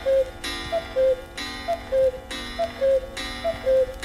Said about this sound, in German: Die Nummer 1 der Geräuschhitparade. Hein nun und 12 Uhr mittags.